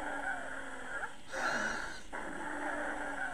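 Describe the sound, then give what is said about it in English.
Wheezing breath sound, a musical, whistling tone that runs steadily through a breath and swells briefly in the middle, heard over a constant faint hiss. “Now this was wheezing.”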